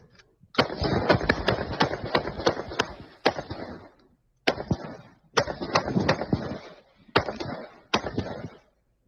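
Gunfire plays from a shooting video: many loud, sharp shots in several rapid bursts, separated by brief pauses.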